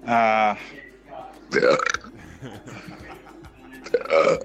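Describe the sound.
A person burping: three loud, drawn-out belches at the start, middle and end, with quieter voiced, talk-like sounds between them.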